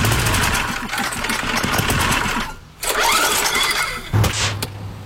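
A small lawn mower engine that had died is push-started. It gives a rattling, rapid mechanical chatter, drops out briefly midway, then catches again and runs on with a buzzy, uneven clatter.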